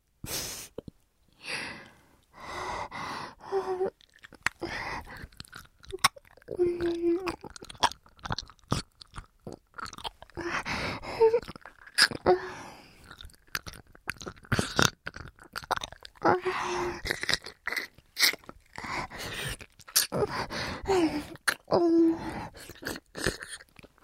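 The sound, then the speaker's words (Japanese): Close, wet mouth sounds of ear biting and chewing: many irregular clicks, smacks and nibbling crunches run steadily throughout, with occasional brief soft voiced murmurs between them. “やりすぎたら耳噛むから。”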